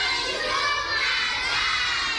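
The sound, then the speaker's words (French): Many children shout and call out together during school recess, a continuous, lively din of high voices with no pauses. “Des enfants en uniforme kaki jouent pendant la récréation.”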